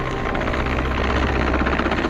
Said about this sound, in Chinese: 直升机匀速上升高度，将落水人员成功救至舱内。直升机随即将伤员后送医院。